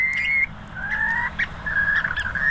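Bird calls from a tame bird that seldom flies up: a few clear, sustained whistling notes at a fairly steady pitch, each lasting under half a second, over a faint low background hum.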